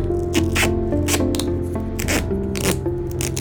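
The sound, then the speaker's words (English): Duct tape is torn and pressed into place in several rasping, sticky rips that repeat at uneven intervals over a steady low hum. “Duct tape. Is there anything it can't fix?”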